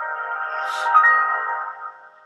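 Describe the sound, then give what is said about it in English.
A phone being reset emits a sustained, harmonic electronic tone that swells slightly in the middle and then fades away. “What the fuck was that? Oh, I was resetting my phone.”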